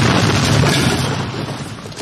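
A loud explosion sound effect from a spy film: a dense, sustained roar and rumble fills the full two seconds, heavy in the low end, with no pauses or separate bursts.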